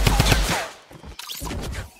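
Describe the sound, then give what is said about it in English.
Gunfire in the video game Fortnite: rapid bursts of sharp, crackling shots in quick succession, followed by a short lull and then another dense stretch of firing. “I guess making gun noises is kind of fun.”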